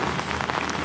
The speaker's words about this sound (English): It was a rainy day, so any raindrop noises you hear are, in fact, raindrops.